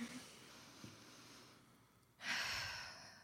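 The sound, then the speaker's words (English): A deep breath drawn before reading a poem aloud: a quiet lull gives way to one loud, breathy rush of air that fades slowly at the end. “Deep breath.”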